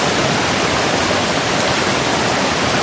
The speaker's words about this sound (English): The thunderous sound you hear is the rushing waters of the Rutland River, which makes its way through the park.